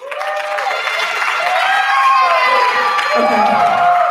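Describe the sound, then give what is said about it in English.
An audience cheers and applauds to welcome a guest onstage for a Christmas story presentation. The loud roar of clapping, shouts and whoops is sustained throughout. “So if you guys will give a hand and welcome my brother, Stefan.”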